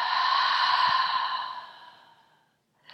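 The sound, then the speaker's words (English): A deep, slow exhale during a guided breathing exercise: a soft, breathy rush of air that holds steady and then gradually fades to silence, with another breath starting at the very end. “and then exhale out. Again, inhale and exhale.”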